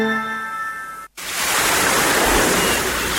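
Sea waves in a travel advertisement: sustained tones break off into a brief silence, then a loud, steady rushing roar of surf fills the rest.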